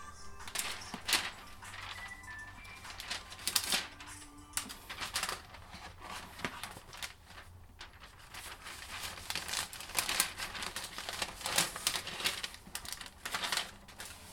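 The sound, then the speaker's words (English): Parchment paper crinkles and crackles while being cut with scissors, giving many sharp, irregular rustling bursts and snips at a steady, busy pace, moderately loud throughout. “But we do have parchment paper, thank goodness. I'm just gonna cut it really quickly.”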